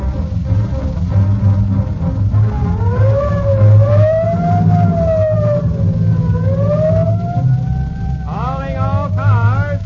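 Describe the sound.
Police squad car siren in an old radio drama, a wailing tone that repeatedly rises and falls over a continuous low rumble.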